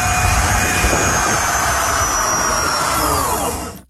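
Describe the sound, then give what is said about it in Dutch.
A heavily modified thin-tyred fat bike with a throttle and a fitted jet engine, pushed to high speed on the road, gives a loud, continuous jet-like roar with a high whine that cuts off abruptly at the end. “En die fiets had ook een gashendel. De politie was benieuwd hoe hard die kon en probeerde dat even uit.”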